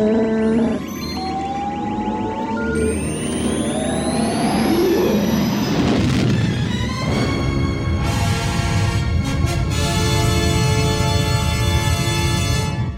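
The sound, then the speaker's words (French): Film sound effect of a spaceship jumping to light speed into hyperspace: whining tones sweep upward and build to a loud burst, then give way to a sustained, roaring, rumbling engine wash with pulsing high tones. “Han Solo et Luke Skywalker qui franchissent la vitesse de la lumière, hein, qui rentrent dans l'hyperespace.”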